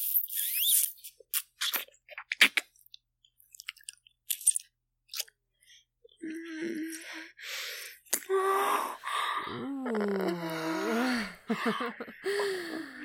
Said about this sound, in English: That was quite the groan, sire.